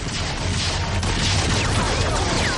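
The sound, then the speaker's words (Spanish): Dense, continuous gunfire from soldiers in the 1989 adventure film Indiana Jones and the Last Crusade, a loud unbroken wash of shots and crashing noise that stays level from start to finish. “La chimenea gira mientras los soldados disparan.”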